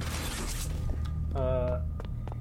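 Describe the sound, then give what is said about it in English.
A door-opening mechanism in the video game Poppy Playtime gives a rushing whoosh, then a few sharp mechanical clicks and a short creaking, buzzy tone. “Okay, now open that door. Open sesame.”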